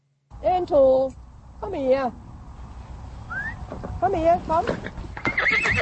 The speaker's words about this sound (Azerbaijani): Come here, come. I bought not a Karabakh horse, I bought a nice golden...